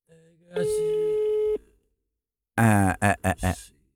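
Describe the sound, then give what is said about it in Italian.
A steady telephone line tone plays for about a second while a number is dialed, followed after a short gap by a brief voice. “Mentre faccio il numero di telefono, ok?”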